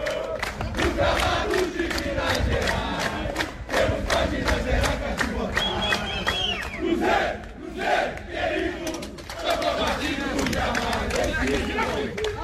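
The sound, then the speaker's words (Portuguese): Cruzeiro football fans protest outside the club's headquarters with a dense, shouting crowd. Rhythmic chants and cries run continuously, swelling and dipping, with scattered claps and loose chatter mixed through the noise. “Aí, imagens da torcida protestando na porta da sede social do clube, ó.”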